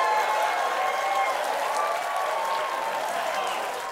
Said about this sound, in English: That's right, I have a clapper. Pretty daring idea for a show with a live audience.